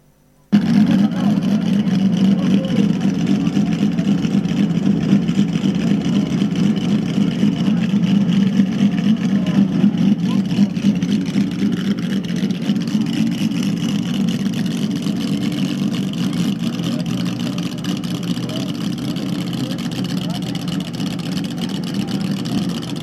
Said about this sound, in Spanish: Realmente es un coche precioso. El chasis que llevaba Fon, el 646. Vamos a ver cómo suena uno de estos vehículos.